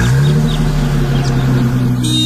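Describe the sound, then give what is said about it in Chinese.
A car drives away, its engine giving a steady, loud, low hum that holds throughout with no pauses. “等冯一龙开车走了以后”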